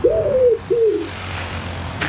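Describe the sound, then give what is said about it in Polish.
A pigeon coos twice in quick succession, two low, throaty rolling calls, before the sound fades into faint background noise. “Jest! Znalazłem! O, jesteś wyjątkowym gołębiem”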